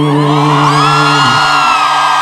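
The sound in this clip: Loud crowd cheering at a radio show, with a sustained whooping voice riding over the dense noise and dipping in pitch midway before continuing.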